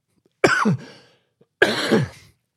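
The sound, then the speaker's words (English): Two separate coughs, each a sharp, rough burst that trails off into a breathy tail. They are spaced about a second apart, with silence between them and no talking. “Sorry, I will try and edit that cough out.”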